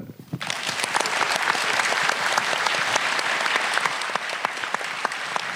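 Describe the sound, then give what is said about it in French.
Sustained audience applause at a public talk on therapeutic abuses: dense, even clapping from many hands, loud and steady from start to finish. “je voudrais, avant vos questions, euh, qu'on applaudisse Sohan”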